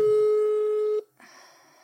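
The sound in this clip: A single steady telephone tone sounds as a call is being dialed, holding evenly for about a second before cutting off sharply. Quieter, low background noise follows.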